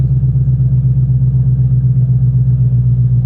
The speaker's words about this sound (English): and then I'll give you some revs. Dashboard's just firing up, obviously you heard that. And now David's foot moved from the brake over to the throttle.